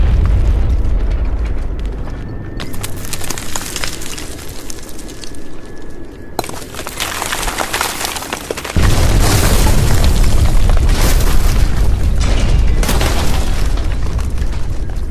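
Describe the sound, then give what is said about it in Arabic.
An explosion booms from above inside a cave, and walls collapse with a loud, continuous roar of crashing debris. Partway through, the rumble grows heavier and deeper. “صوت انفجار جاي من فوق، وبعض الجدران صارت تطيح بقوة الاهتزاز اللي صار”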